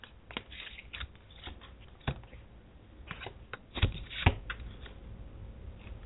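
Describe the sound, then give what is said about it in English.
Oracle cards are shuffled for a card reading, with many quiet, crisp flicks and papery snaps in an uneven rhythm and a few sharper slaps standing out. “Okay, so I'm going to be pulling three cards for you today.”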